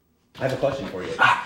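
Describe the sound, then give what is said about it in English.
A dog barks in a tidy home living room, short barks mixed in under a woman talking. “while sitting in her tidy living room, dog barking in the background”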